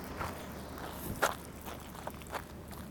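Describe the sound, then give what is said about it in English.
Footsteps of someone walking on the Salt Flats: a few soft, irregular steps, faint against a low steady background hiss. “Okay. I'm just walking. So we're at the Salt Flats,”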